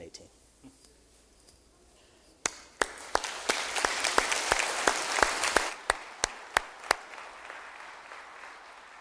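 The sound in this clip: A church audience at East Jordan bursts into applause after a near-silent start. Many hands clap in a dense, steady wash, and a few sharp individual claps stand out above it until it thins near the end.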